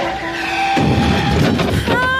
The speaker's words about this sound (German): Riesig, wie ein Ozeandampfer, erfasst sie ein gelber Mercedes.